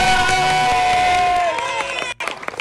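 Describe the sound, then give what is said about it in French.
An audience cheers and claps for schoolchildren after a successful challenge, with loud whoops and shouting over clapping and a sustained tonal note. The noise dips sharply just before the end, then resumes more faintly. “On applaudit tout le monde. Allez, on applaudit les”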